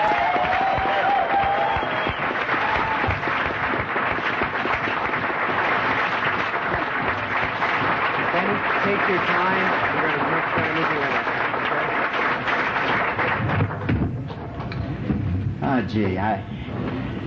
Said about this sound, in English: So if you could please give him a warm welcome for Benny M. from the show.